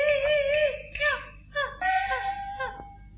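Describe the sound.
A woman cries in drawn-out, wavering wails and moans. Several separate cries are broken by short pauses, each rising and falling in pitch, loud and with no other sound.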